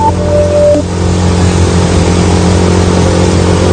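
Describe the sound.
A motorcycle engine runs on a night ride, a loud, steady drone with a low, even hum that holds at the same level from start to end, with no talk.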